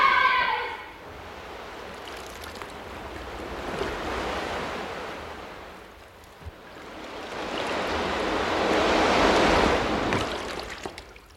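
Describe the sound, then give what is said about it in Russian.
Sea waves of the incoming tide: rushing surf swells up twice in long, broad washes with a windy hiss, after a brief voice at the very start. “А теперь побежали. Начинается прилив.”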